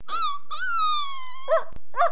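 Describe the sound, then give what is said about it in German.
A dog whimpers in two long, high, thin whines, then gives two short, wavering whimpers, with nothing else heard. “Zu ihrem Erstaunen sahen sie einen winselnden Hund, der eine schwarze Decke auf dem Rücken hatte.”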